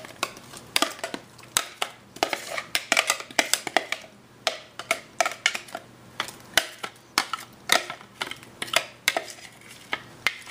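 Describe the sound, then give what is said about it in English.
Blended ginger and garlic added into a mixing bowl, a steady series of many crisp clinks and taps of a utensil against the bowl, evenly spaced and moderately loud, with no speech. “So I'm gonna go ahead and add that into our mixing bowl here.”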